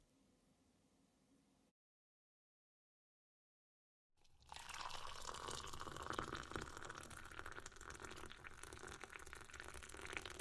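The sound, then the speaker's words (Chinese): Water pouring into a glass: a loud, steady rush that starts abruptly after a silent gap and continues to the end, with no voices. “我去倒一杯水”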